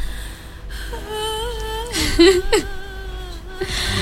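A baby whimpers and fusses, making thin, wavering tonal cries that rise and fall in pitch throughout, with a couple of louder, strained bursts near the middle before settling back to soft whining.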